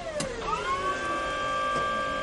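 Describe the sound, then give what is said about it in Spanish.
Electric motor whine of a forklift reversing as Walt operates it near barrels, a harmonic whine that climbs briefly in pitch and then holds steady and fairly loud. “Walt gira los mandos. El barril cae sobre las púas del toro. Walt da marcha atrás.”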